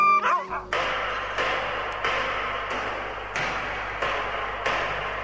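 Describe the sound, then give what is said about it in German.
Nervous dogs in Lapland bark and whimper: a high, whining yelp opens, followed by a long run of regularly spaced harsh barks over continuous rough noise. “Unsere Hunde sind sehr nervös.”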